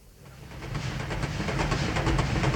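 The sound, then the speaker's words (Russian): Rattling of a hard-class train carriage running along the rails: a continuous rhythmic clatter with a steady hiss, starting softer and quickly swelling to a loud, even roar with no voices. “И вот жесткий вагон, третья полка, под головой труба парового отопления”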